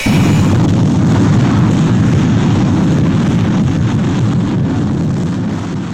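Rocket engines firing for the liftoff of the Loki rocket, with retro rockets online: a loud, steady, dense roar with deep rumbling that runs unbroken through the whole clip.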